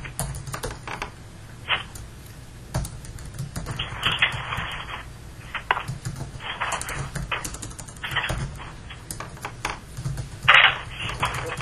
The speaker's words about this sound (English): But to type or not to type, that's the question.